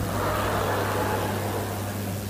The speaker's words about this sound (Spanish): Mira, el auto de mi suegro.